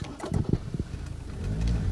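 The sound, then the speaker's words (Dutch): A car driving on a sandy dirt road through a forest: a steady low rumble with a few irregular bumps and knocks early on, then a heavier rumble toward the end. “De verharde weg is al opgehouden. We rijden nu over een zandweg dwars door het bos.”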